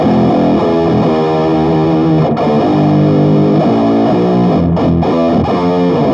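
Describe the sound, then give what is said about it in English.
An electric guitar played through a Bad Cat amp and an Electro-Harmonix POG octave pedal set to add the lower octave: loud, thick, distorted chords ring continuously with a deep doubled low end, with no talk. “Same sound, but with a electro-harmonics POG with a lower octave.”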